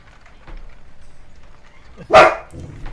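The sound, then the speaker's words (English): A dog lets out a single loud, sharp bark that stands out after a stretch of quiet, low background noise. “You left the dog! No, I didn't.”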